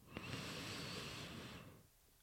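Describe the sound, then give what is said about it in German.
Soft, airy breathing in during a guided breathing exercise: a quiet, steady rush of air lasting under two seconds before fading away. No talk. “atmen wir gemeinsam ein und aus. Einatmen.”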